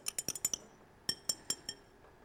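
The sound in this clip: A spoon clinks against a glass while stirring salt into water, giving two short bursts of light, bright taps separated by a pause. The sound is quiet and there is no talk.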